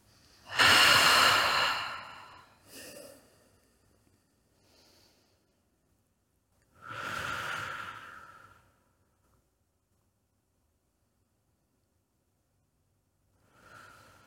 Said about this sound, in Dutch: Even diep ademhalen via de neus.